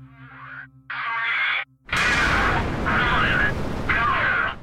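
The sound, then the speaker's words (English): The Terran 1 3D-printed rocket lifts off from Cape Canaveral, Florida: a deep, broad roar bursts in suddenly after a few seconds of speech and keeps rumbling steadily while a voice talks over it. “We have liftoff. In a test flight named Good Luck, Have Fun, Terran 1, the world's first 3D-printed rocket, blasted off from Cape Canaveral in Florida late last week.”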